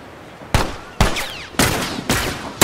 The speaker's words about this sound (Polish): Kto do mnie to jeszcze strzela?